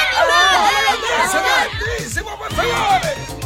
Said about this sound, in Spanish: El lugar se volvió loco. Todos empezaron a gritar, a correr y a voltear mesas y sillas para salir de ahí.